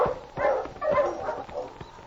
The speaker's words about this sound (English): Yeah, that is a dog.